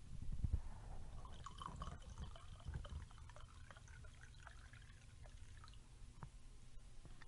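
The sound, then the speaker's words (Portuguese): Red wine pours into a stemmed glass with a quiet, steady liquid trickle and faint dripping, running continuously for several seconds without talk. “Barulhinho legal, né? Do vinho enchendo.”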